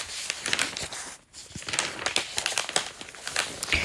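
Newspaper pages are turned with crisp rustling and crinkling: a dense run of paper crackles with a brief lull near the middle, and no voices.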